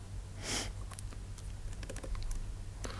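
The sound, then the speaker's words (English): Typing on a computer keyboard, a soft, irregular run of faint key clicks with short pauses between them. “Not that good in typing today.”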